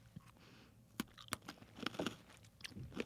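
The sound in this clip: Crunchy twisted snack sticks with a buttery, oniony, garlicky seasoning are bitten and chewed, making a run of sharp, irregular crunches of varying loudness over a low steady background hum.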